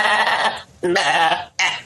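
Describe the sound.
A farm goat bleats three times in quick succession, each call a wavering, nasal, voice-like cry, loud and alone with no other sound around them.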